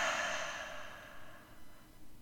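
A slow, soft exhale taken during a guided breathing exercise, breathy and gradually fading over about a second and a half. It is faint and heard alone, with no talk.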